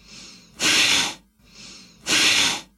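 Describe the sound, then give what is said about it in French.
Two sharp, forceful exhalations through the nose in an energizing breathing exercise, each a loud hissing burst that follows a softer breath in, with a brief pause between the pairs. “L'exercice va consister à inspirer, puis souffler brusquement par le nez, comme si vous chassiez une poussière de vos narines, ce qui donne quelque chose comme...”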